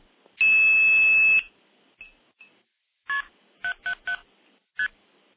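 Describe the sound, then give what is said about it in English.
Blue box tones dialing a direct SIP connection. A long, steady high tone comes first, then a couple of faint blips, then five short, sharp tone bursts in an uneven rhythm. “I do have a direct SIP connection into Telefreak that can be dialed using a blue box.”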